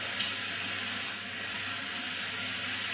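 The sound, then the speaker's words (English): Brown and black mustard seeds frying as they are stirred, giving a continuous, even sizzling hiss that stays at a steady level with no voices. “Okay, fry it nicely and keep stirring it so that it doesn't stick. That's it, and you can hear the mustard seeds popping.”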